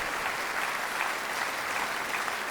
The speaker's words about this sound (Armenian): Բարձր ծափարենք, շնորհակալություն ձեզ։